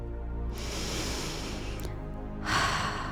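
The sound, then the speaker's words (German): A deep, forceful exhale during a guided relaxation exercise: a long, airy rush of breath lasting over a second, then a short pause before another, louder breath begins. “Also mach es dir jetzt vollkommen bequem, entspanne dich und atme noch einmal ganz tief und kräftig aus.”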